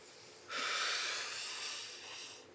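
A person breathing deeply during a breathing exercise draws one long, airy breath that starts abruptly after a short quiet moment and holds as a steady, breathy hiss for about two seconds, fading slightly toward the end, with no talking.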